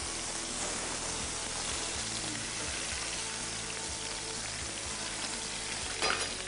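Food sizzles and crackles in a pan as it fries to build a crust, a steady, dense hiss with fine popping that holds throughout, with no voices.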